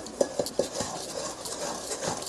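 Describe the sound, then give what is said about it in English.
A spoon stirring a mixture in a bowl while cooking: three sharp clinks against the bowl come first, then steady scraping and swishing as the mixture blends. “And now it's kind of all blending together. I can tell just by the feel of the spoon.”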